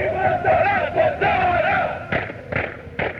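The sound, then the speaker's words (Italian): Football supporters chant a marching song in unison while stomping their feet, a droning, tuneful crowd chant rolling on, with a few heavy thuds of stamping breaking in toward the end. “Qui si canta mentre si cammina, sicuramente, perché questa è una marcetta che loro fanno marciando, battendo i piedi, più che altro trum trum si sente il rumore.”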